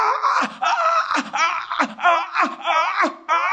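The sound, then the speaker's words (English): A voice imitates a person groaning in the spirit, with a series of wavering, drawn-out moans broken by short breathy gasps in an uneven rhythm. “You can't stop. You can't stop. You are just groaning in the spirit.”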